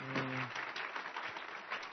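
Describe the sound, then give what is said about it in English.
Audience applause at a church service, clapping for testimonies; a dense, steady patter of many hands that continues evenly throughout, with a brief voice at the very start. “All right, can we clap just for the testimonies of what God's done?”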